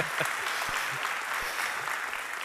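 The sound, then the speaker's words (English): Audience applause at a church service welcoming a speaker to the stage: steady, dense clapping that holds at an even level throughout, with no voices over it. “So if you would, put your hands together, get loud, give a warm welcome”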